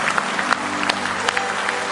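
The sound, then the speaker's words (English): Hand clapping of praise during a church service: scattered sharp claps at uneven intervals over a steady, humming background. “Can you give him one more hand clap of praise?”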